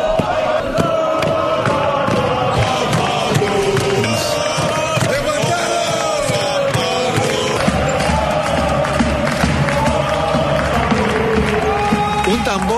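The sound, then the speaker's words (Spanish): San Pablo Burgos players jumping and celebrating qualification for the Champions League quarterfinals in an empty arena: a dense, continuous mass of shouting male voices with scattered thumps throughout. “De jugadores saltando ahí, celebrando sin público en el pabellón de San Pablo Burgos la clasificación para cuartos de final de la Champions League”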